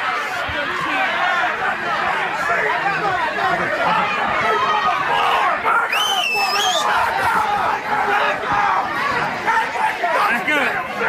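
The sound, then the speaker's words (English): Black Friday shopping crowd at a Walmart: dense, continuous chatter of many overlapping voices forming a loud, steady hubbub throughout. “Let me just give you a soundbite of Black Friday. Tell me if this sounds like fun.”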